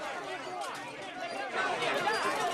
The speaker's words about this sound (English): the double doors at the entrance to the restaurant are opened, revealing a scrum of well-wishers, autograph hunters, and press.